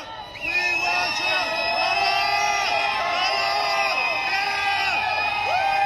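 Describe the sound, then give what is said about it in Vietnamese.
Supporters chant and shout outside a courthouse as Trump's motorcade leaves, with many overlapping voices rising into a loud, sustained crowd roar. “Khi đoàn xe của ông Trump rời tòa án, những người ủng hộ hô vang khẩu hiệu "Chúng tôi yêu Trump".”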